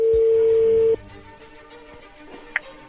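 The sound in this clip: A telephone call being dialed: a steady low tone holds for about a second and cuts off, followed by a quiet stretch and then a single short, high beep.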